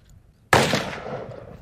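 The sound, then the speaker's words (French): A single sharp gunshot from a shooter firing at a precise head-shot target in training, an abrupt loud crack after a quiet start, decaying into a long rough tail. “Now he's firing on the pinpoint target. He's firing on the headshot.”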